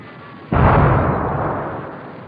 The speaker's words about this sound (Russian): шестиствольный вражеский миномет, и одна мина разорвалась около пушкарей.